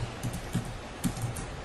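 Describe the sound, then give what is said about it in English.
Keys tapping on a computer keyboard, a faint, sparse run of light clicks at an uneven pace. “If I can type.”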